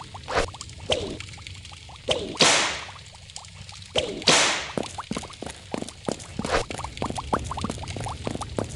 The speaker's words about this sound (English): Unavailable. Leather whip.